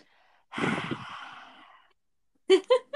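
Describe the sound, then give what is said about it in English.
A yoga lion's breath exhale with the tongue stuck out: one long, forceful, breathy rush of air that tapers off, followed by a few short voiced bursts as someone starts speaking. “like a lion. And this exhale is you stick your tongue out.”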